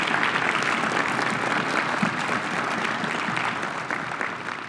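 A church audience applauds to welcome a missionary preacher home: thick, continuous clapping holds at an even level and eases slightly toward the end.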